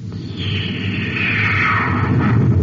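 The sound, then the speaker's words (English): A rear cosmic torpedo fired from a spaceship at another ship among planetoids makes a loud, sustained rushing whoosh. A tone within it glides downward in pitch over a low, steady rumble. “Oh, I missed him a mile. He swerved just as I fired.”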